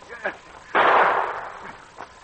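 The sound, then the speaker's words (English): A gunshot fired near the entrance of a mine: one loud, sharp blast followed by a long decaying rumble, with quieter sound before and after. “And then Pierre heard shots. He ran as fast as he could toward the sound, and again he heard one as he approached the opening into Steve's mine.”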